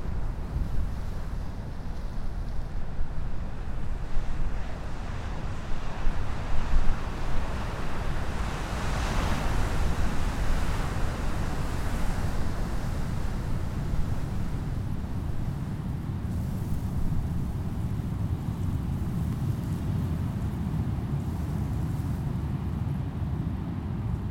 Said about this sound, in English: We're now sitting on one of the oceanside sand dunes. Dunes like this protect the ecosystems further inland from the onslaught of the ocean's waves and tides.